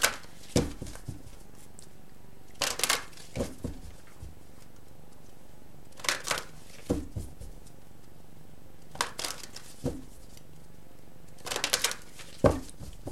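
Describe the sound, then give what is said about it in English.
Tarot cards from the Witch's Tarot and Money Tarot decks are handled in several short, crisp bursts of shuffling and riffling, separated by quiet pauses, with no voices. “So I'm going to choose one card from the Angels of Abundance as the overarching theme for mid-November through the end of the year. And then three cards from the Witch's Tarot and one card from the Money Tarot by Eugene Fornitsky.”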